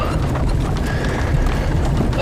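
Hooves clip-clop as a horse draws a carriage. Many quick, even knocks form a continuous rhythm over a dense, low rumble that stays loud throughout.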